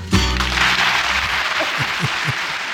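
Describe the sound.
A live concert audience in Lausanne in 1970 gives sustained, hearty applause. The thick, even clapping stays loud throughout.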